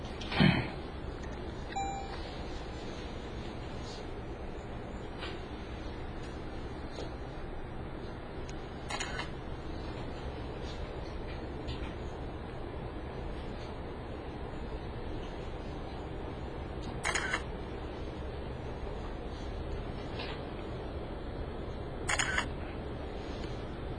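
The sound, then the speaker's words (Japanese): A camera shutter fires several sharp, isolated clicks as photos are taken, spaced far apart over a steady low background hum. “ちょっと写真を撮ってから。”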